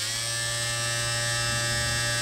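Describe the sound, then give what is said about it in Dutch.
An electric shaver gives a steady, loud, high buzz with no break and no voices. “Ja, ik heb het natuurlijk over het elektrisch scheerapparaat.”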